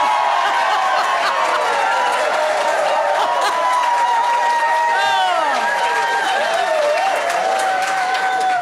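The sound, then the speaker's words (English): Enthusiastic studio audience cheering and applauding at a live music session in the ABC Music Studio: a dense, steady wash of clapping runs throughout, with whoops and rising and falling whistle-like cries on top. “where artists perform live and discuss their music in our ABC Music Studio with an intimate audience. And when I say intimate, I don't mean that they're not enthusiastic and excited.”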